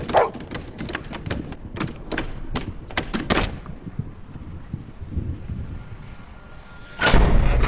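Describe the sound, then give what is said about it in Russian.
A door handle turns and rattles, giving a quick run of many sharp clicks and knocks over the first few seconds, then a quieter stretch before a broad rushing noise rises near the end. “В шоке смотрит на вертящуюся дверную ручку.”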